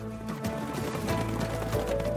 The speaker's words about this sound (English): rode into the mountains on horseback